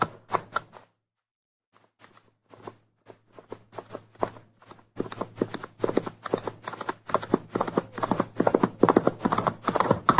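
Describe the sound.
Hooves of a cowboy's horse ridden hard: a few scattered clops and a brief pause, then a rapid, steady gallop that grows louder and denser, with a low hum underneath.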